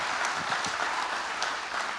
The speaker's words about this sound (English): let's give a round of applause for PT.